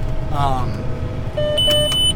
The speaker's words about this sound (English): but we've been getting the auto steer beeping at us a lot.